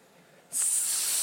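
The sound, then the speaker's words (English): A person imitates a snake's hiss with a single bright, high hiss that starts abruptly partway through and then holds steady and loud until the end. “Those are my best snake sounds.”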